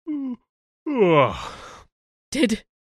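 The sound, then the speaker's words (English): A person gives a long, drawn-out voiced yawn whose pitch slides and then trails off into breathy air. Short vocal sounds come just before and after it. “Did you just yawn at me, Captain?”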